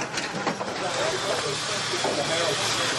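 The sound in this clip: A smoke grenade hisses during a scrappy tank battle, giving off a steady, broad, airy hiss that keeps going at an even level from start to finish.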